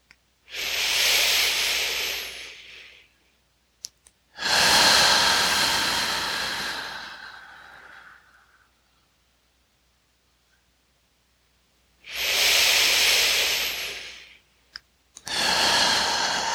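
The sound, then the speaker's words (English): Deep lower-belly breathing: four long, airy, hissing breaths, two close together, then a long silent gap before two more, each swelling quickly and tapering off with no talk over them. “This breath, the 12-fold lower belly breathing is specifically”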